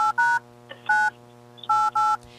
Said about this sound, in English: All right. Well, let's give her a phone call.